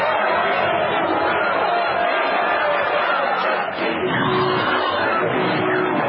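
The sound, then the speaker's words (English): A crowd chants the Emperor's name in a Star Wars film scene. Many voices merge into a dense, continuous roar that stays loud and steady, with one brief dip partway through. “And listen to them chant the Emperor's name.”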